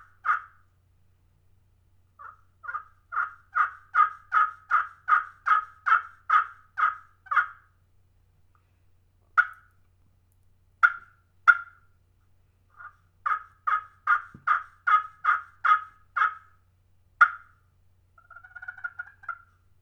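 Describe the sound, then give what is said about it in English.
Turkey yelps played on the slate surface of a custom friction turkey call: many loud, evenly spaced yelps in rhythmic runs broken by short pauses, then a softer run of rapid notes near the end, heard alone. “I flipped the call over and I played the slate surface.”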